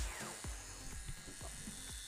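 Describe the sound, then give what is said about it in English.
An electric shaver shaves off a mustache with a faint, steady buzzing hum, broken by a few soft scraping pulses as the blades pass over the hair. “I am shaving my mustache.”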